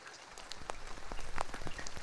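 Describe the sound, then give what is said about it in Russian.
Slanting rain falling on a street: a soft, steady wash of patter with scattered sharper drops tapping throughout, fairly faint and without voices. “Дождь лил косо, так что струи то и дело попадали под зонт.”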